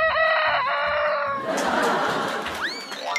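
A black-boned silkie rooster crows early in the morning, one long, loud and strained cry with a bright harmonic tone, followed by a noisy, busy stretch of other sound.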